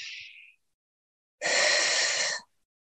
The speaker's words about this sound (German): Nochmals tief einatmen